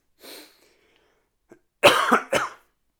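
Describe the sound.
Two harsh coughs from a person with a dry throat, coming close together after a faint breath and a brief pause, fairly quiet and with no talking.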